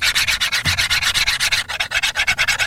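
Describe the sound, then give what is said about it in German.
A euro coin is rubbed against a microphone, making loud, harsh scraping in many quick, rhythmic back-and-forth strokes with no pauses. “Also ich habe mir jetzt auch mal einen Euro geschnappt. Ich versuch's mal am Mikrofon”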